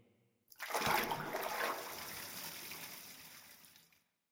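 Hot bath water splashes in a sudden burst that gradually eases into a softer, steady wash before stopping.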